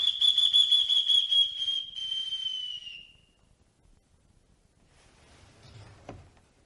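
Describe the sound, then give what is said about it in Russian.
Someone whistles outside in the street, holding one high sustained note for about three seconds that dips slightly as it fades, followed by faint scattered noises. “Кто-то свистит на улице”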